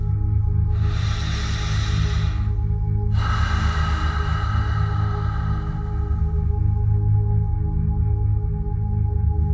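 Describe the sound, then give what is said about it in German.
Two deep breaths taken during a guided trance relaxation, an airy inhale followed by a longer exhale, each a soft rushing hiss over a steady low musical drone. “Beginne nun erst einmal mit ein paar tiefen Atemzügen.”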